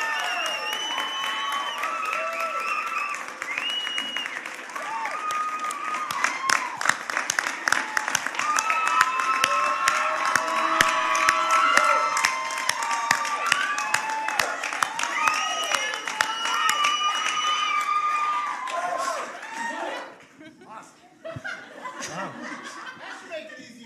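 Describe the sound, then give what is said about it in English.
Applause and cheering from a standing audience welcoming a young man at a campus gathering: dense, sustained clapping with voices and laughter mixed in, holding steady for about twenty seconds before thinning out toward the end. “So do me a favor this morning. Would you stand? Would you put your hands together and welcome this young man? Come on!”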